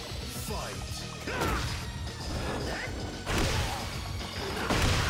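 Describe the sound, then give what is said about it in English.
Heavy slam and crash effects from King's power bomb in the fighting game Tekken 8, with several loud impact thuds over a dense, busy game soundscape while a commentator talks excitedly. “Oh, yes, into the power bomb. I love that combination there by King.”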